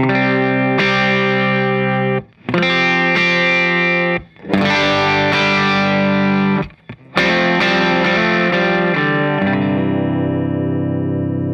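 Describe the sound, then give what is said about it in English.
Electric guitar played straight into an amplifier with all effects off: loud ringing chords in several phrases split by brief silences, the last chord left to sustain and fade. “let's just hear your guitar into your amp just a little bit. Yeah, sure. So this is with nothing on. So this is just the basic sound here.”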